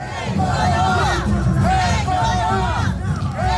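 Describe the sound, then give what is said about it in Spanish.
Thousands of protesters march through the streets of Lima, Peru, chanting the slogan 'Keiko no va' in unison. The rhythmic chant repeats steadily and loudly over a constant roar of massed voices. “Y de Perú, este sonido.”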